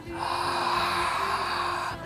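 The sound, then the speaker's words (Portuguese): A slow, long exhalation through the open mouth during a breathing exercise: a steady, breathy hiss held evenly for about two seconds, with no talk over it. “E agora vamos soltar bem devagar pela boca, abrindo a glote.”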